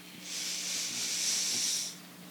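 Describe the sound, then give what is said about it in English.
A single long inhale during a yoga class, drawn in as a soft, airy hiss that swells smoothly, holds for nearly two seconds, then cuts off cleanly. “And breath in.”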